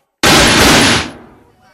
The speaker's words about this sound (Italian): Due colpi.